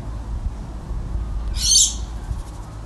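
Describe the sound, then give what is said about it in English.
A brief, high bird call bursts out once over a steady low rumble of outdoor background noise on a Friday morning, with no other distinct calls. “birds, a lot of birds.”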